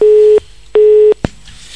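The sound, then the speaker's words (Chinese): Busy tone after a dropped phone call: two steady, mid-pitched beeps of equal length with a gap between them, then a short sharp click, with no talking. “哇，这个电话跳掉了。”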